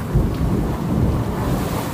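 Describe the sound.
Thunderstorm rumble, deep and loud, a continuous rolling roar of thunder mixed with a broad hiss of rain, holding steady throughout without a pause.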